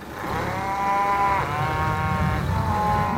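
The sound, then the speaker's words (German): Cattle lowing on a pasture where young calves are kept behind a fence: a few long, sustained moos that overlap and run almost continuously, loud and clear with no talk. “Und ihr seht jetzt auf der anderen Seite von dem Zaun, da sind jetzt die ganzen, die jungen Kälber.”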